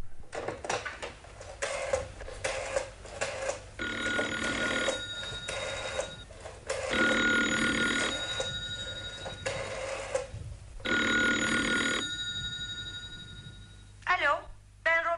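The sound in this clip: Telephone bell ringing in a radio drama scene as a call is placed: several long bursts of bright, metallic ringing separated by short gaps, fairly loud, with voices and other movement sounds around them.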